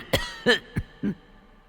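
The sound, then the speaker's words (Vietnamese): An old man coughs in four short, harsh bursts, rough and throaty, with brief pauses between them and a weaker final cough, heard alone. “Trong giọng nói của lão nhân dường như đã kiệt sức, cứ như thế mà ho.”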